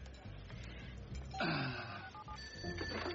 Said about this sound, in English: Speed dial line one.